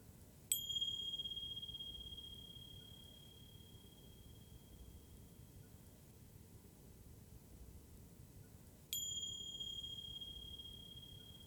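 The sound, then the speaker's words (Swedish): Bells or clocks ringing: two sharp, high strikes several seconds apart, each leaving a long, clear sustained ring that slowly fades over faint hiss. “Och lyssna sedan till ljudet från mina klockor.”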